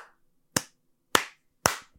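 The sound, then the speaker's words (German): Three single hand claps during a demonstration of clapping technique, palms offset one over the other. Each crisp, sharp slap rings out alone with short decaying tails, spaced about half a second apart. “Machst du den so smooth oder bleibt die andere Hand, die klatscht quasi?”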